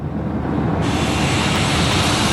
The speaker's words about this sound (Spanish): Y despegamos hacia Dinamarca.